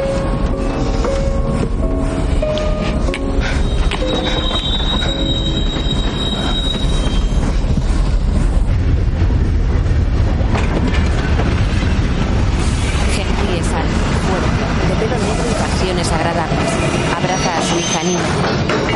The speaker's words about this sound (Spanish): Las ruedas del tren se detienen sobre los raíles.